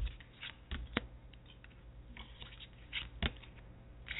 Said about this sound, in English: So as I pull the card, choosing a card for the week, universal for everyone listening, as I ask for guidance and calling upon the angels.